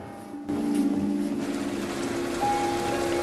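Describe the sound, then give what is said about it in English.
Heavy rain lashes on a car. After a short quiet moment it starts suddenly and becomes a dense, steady patter that stays loud to the end, with a low hum underneath. “Sitting in the rain-lashed car, Flanagan glances over at Cross, who has his eyes closed.”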